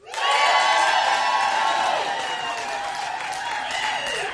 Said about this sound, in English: Make some noise if you are queer.